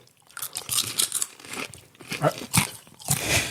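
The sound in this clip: Crunching of a Kansas City-style snack mix, the Mahomes blend, being chewed: many loud, brittle crunches in irregular bursts, with short gaps between bites.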